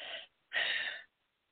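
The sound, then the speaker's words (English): A person takes a short breath, heard as two soft airy rushes of air with no talk, the second longer than the first. “Let's take a little breath.”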